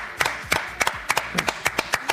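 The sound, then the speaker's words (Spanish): Sparse audience applause: a handful of hands clap in a loose, fairly steady rhythm, with sharp, distinct claps about every quarter second. It is moderately loud, with no talk over it. “Realmente, nada más tengo palabras de agradecimiento y este aplauso.”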